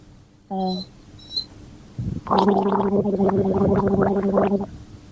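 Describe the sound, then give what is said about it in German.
Loud gargling with a sip of water follows a brief vocal sound, becoming a few seconds of bubbling, throaty rattle that stops abruptly. “einen Schluck aus seiner Flasche nimmt und einfach mal gurgelt, also laut gurgelt, ich muss mal kurz einen Schluck nehmen, dann mache ich es euch mal vor.”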